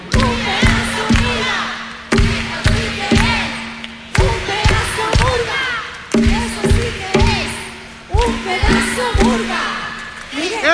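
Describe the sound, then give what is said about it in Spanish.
Live-show audience chanting in unison, voices rising and falling in a steady repeated phrase over regular loud thumps, like rhythmic stomping or clapping, roughly two beats a second throughout. “Eso sí que es un pedazo de público. Eso sí que es un pedazo de público. Muchísimas gracias, muchísimas gracias.”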